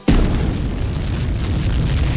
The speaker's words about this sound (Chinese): 而也就在这时，不稳定的手榴弹突然意外发生爆炸，